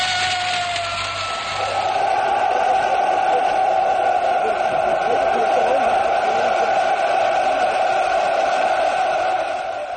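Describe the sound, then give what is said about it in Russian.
A vast crowd cheering and hailing the victors at the 1945 Victory Parade in Moscow's Red Square, a sustained, loud roar of many voices that swells early and holds steady to the end. “Приветственные возгласы, поцелуи. Народ восторженно приветствует победителей.”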